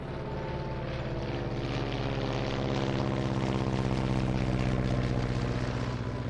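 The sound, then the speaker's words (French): A U-2 spy plane engine during takeoff: a loud, steady, low droning rumble with dense layered harmonics that swells slightly fuller and louder over several seconds. “6h26, décollage.”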